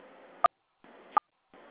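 Two brief telephone keypad tones as password digits are typed, each a short beep, separated by gaps, with hissing line noise cutting in and out around them.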